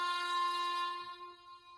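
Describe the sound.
A sustained horn-like tone signals an approaching train: one steady, loud chord of layered harmonics held for nearly two seconds, dipping slightly in level toward the end with no other sounds.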